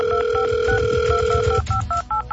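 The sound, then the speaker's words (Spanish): Telephone dialing tones: a steady tone runs under a series of short, evenly spaced beeps, then cuts out while the beeps continue alone over low background rumble. “Ay, ya está marcando a alguien ahí.”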